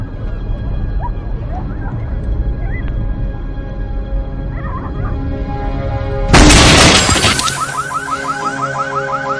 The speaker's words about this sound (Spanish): Choca con un camión y salta al airbag.